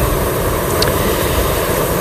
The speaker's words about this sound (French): Qu'est-ce qui vous ferait plaisir? L'avion, la montgolfière, le paramoteur ou le parapente? Allez, la montgolfière. La montgolfière.